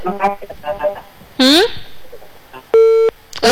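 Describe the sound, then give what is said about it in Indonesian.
A busy tone after a dropped phone call: one steady electronic beep sounds near the end, following a stretch of faint talk. “Terputus nampaknya. Ya, yes, sinyal lagi tak bagus sepertinya di sana.”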